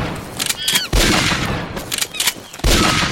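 Rifle gunfire in a video game: two sharp, loud shots, each followed by a sustained burst of noise, with brief chirping calls in between.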